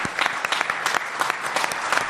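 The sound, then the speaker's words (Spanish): Audience applause for a folk group at a live event, brisk, dense clapping with sharp individual claps poking through, loud and steady for two seconds with no voices. “Vamos a dar un aplauso”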